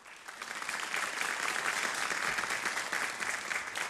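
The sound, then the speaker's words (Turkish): Studio audience applauding the soloists and musicians of a Turkish music ensemble: dense, steady clapping that swells in the first second and then holds at an even, full level to the end, with no voices over it. “Efendim bugün bizlerle olacak solistlerimiz ve sazlarımızı alkışlar mıyız?”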